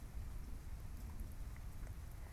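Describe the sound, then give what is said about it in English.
Faint rain from a wild nighttime thunderstorm, a steady, even hiss of falling water with no distinct thunder claps. “Seems like there's a pretty wild thunderstorm tonight.”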